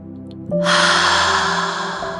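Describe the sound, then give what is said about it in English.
One long, deep breath, a steady airy rush that begins sharply and then slowly fades, heard alone over a soft, sustained musical tone. “let's take three deep breaths.”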